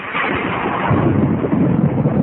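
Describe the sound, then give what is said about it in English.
Thunder from a lightning strike rolls as a loud, continuous rumble with a dull, muffled top end. It holds steady throughout, growing slightly heavier in the lower range toward the end, with no voices. “Crack of the lightning.”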